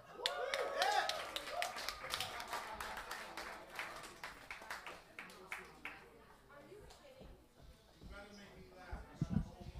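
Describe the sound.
Audience applause at an open mic comedy night at Funkin' Waffles, dense clapping that thins out as it goes, mixed with voices from the crowd.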